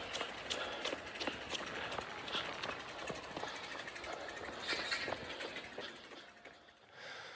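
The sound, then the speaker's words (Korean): Bicycle wheels turn as a child rides a two-wheeler, the brake cable brushing the spokes to make a steady run of quick, bright ticks and rattles that continue throughout before thinning out near the end. “그 자전거 돌아가는 바퀴가 돌아가는 소리는 잘 들리죠. 그 브레이크 선이 약간 그 바퀴 살에 조금씩 닿아서 소리가 좀 크게 들리긴 합니다만은”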